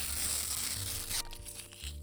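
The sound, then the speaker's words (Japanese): Thin receipt paper tears with a brief, dry, papery rasp and soft crinkling, fairly quiet, heard on its own without talk. “ちょっと普通の紙より軽い音なのかな。レシートはあんま破かないから、”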